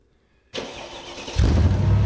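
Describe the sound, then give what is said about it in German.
An Alfa Spider car's ignition is switched on after near silence, an abrupt broad whir of cranking that rises about a second later as the engine catches into a louder, low, steady rumbling idle. “Oberstleutnant, schalten Sie die Zündung ein.”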